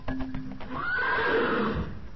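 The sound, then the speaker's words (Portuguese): A horse neighs in one long, loud whinny that swells with a wavering, high-pitched cry and holds for over a second before tailing off. Lower snorting and rustling sounds come just before it. “Tarde na noite, o cavalo relinchou pela primeira vez.”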